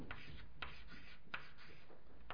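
A pen or marker scratches out a diagram in faint, scratchy strokes. A few separate short strokes sound at uneven intervals, with no voices.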